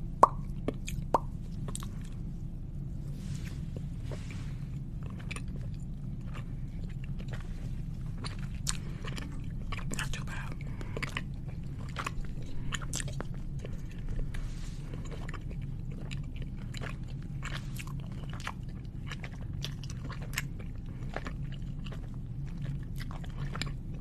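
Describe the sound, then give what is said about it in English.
Chewing of a last mouthful of food, with many small crunches and wet plops scattered irregularly over a steady low hum, and no talking. “I'm trying to talk with my mouth full. And this is the last bite.”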